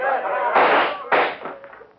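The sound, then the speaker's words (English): Rifles fire through ice into frozen ground beside a hill: two sharp, loud, noisy blasts about half a second apart, each with a brief lingering tail, and a voice briefly heard at the start. “Shoot through the ice with your rifles. Right down alongside the hill.”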